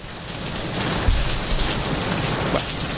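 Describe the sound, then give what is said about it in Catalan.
Rain pours down in a loud, dense, continuous hiss. It stays even throughout, with no voices. “Podem fer que plogui una mica, sisplau?”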